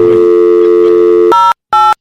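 A telephone ringing tone on a live radio call-in: a steady held tone gives way to two short, loud buzzing ring bursts separated by a brief silence.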